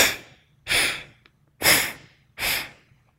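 Forceful breaths during a Pratiloma Pranayama breathing exercise: four loud, airy rushes of about half a second each, separated by short silences.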